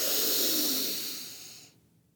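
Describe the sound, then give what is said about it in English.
A deep, full inhale is taken during a guided breathing exercise. A long, loud, airy hiss gradually tapers away and then cuts off abruptly after under two seconds, with no talking. “Take a really deep breath with me. Just inhale really big.”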